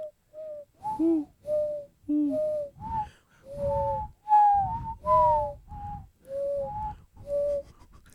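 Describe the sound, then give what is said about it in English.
A person imitates a pigeon or dove call with many short, soft, whistled coos. Most sit at a steady middle pitch with a few higher notes, and the coos are faint and heard alone. “That's a good dove right there. Okay, anyway, that was a good pigeon. You got a solid pigeon call, man.”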